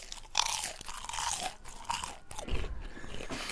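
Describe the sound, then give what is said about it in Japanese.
Crisp fried curry bread with a chunky curry filling is bitten into and chewed, giving a few sharp crunches followed by softer, crackly chewing that continues quietly to the end. “カレーパン 行ってみましょう。いただきましょう。コクうまカレーパン、”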